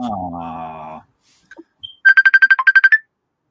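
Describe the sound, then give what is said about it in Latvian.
Incoming-call ringtone on a mobile phone: a rapid run of about ten short, bright electronic beeps at a steady rhythm, following a brief voice and a couple of faint clicks. “Tu man zvani?”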